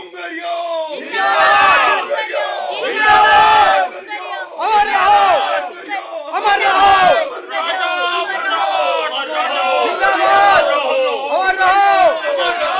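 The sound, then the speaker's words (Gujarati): Large crowd gathered on a river bank near a goddess temple, many voices shouting and chanting together in loud repeated bursts with short pauses between them. “તાંત્રિક જી, આ નદીના ઓવારે આટલી બધી ભીડ કેમ? શું ડુંગરિયા સાથે આટલા બધા લોકો આવે છે? જુઓ તો ખરા, ચારે બાજુ કેટલી બધી ભીડ જ ભીડ”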